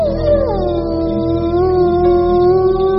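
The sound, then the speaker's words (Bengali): A stray dog cries in a single long, plaintive howl. Its wavering tone dips slightly at the start, then holds steady and loud, heard alone without a break. “আমার পায়ের শব্দ পেয়ে একবার আমার মুখের দিকে তাকিয়ে করুণ স্বরে ডেকে উঠল।”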